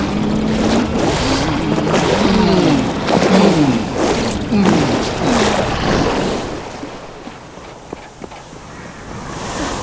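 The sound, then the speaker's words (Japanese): A motor engine runs loudly after being started, its droning pitch wavering up and down in repeated swells for about six seconds. It then drops to a quieter background hum broken by a few sharp clicks. “エンジンかけてるよ。”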